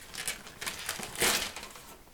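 Gift wrapping paper crinkles and rustles as presents are unwrapped, in a quiet run of irregular crackling bursts that swell briefly near the middle and then thin out.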